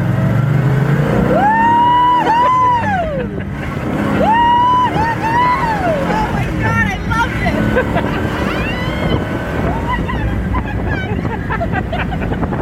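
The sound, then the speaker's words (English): A 360-horsepower car with a tri-power setup of three two-barrel carburetors accelerates hard, its loud engine note repeatedly climbing and then dropping, while people talk over it. “makes this car unique is the tri-power setup. 3 2-barrel carburetors. 360 horsepower, and that was always underrated big time.”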